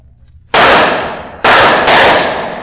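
Gunshots fired at barrels: three sharp, loud blasts, each with a long decaying tail. The last two come close together.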